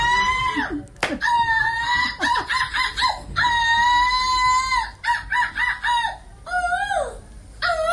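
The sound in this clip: A human voice imitates a seagull's squawk as a silver-medal entry at a European gull-squawking championship in Belgium. Many loud, harsh, cackling calls with strained harmonics come in rapid bursts, with brief gaps between them.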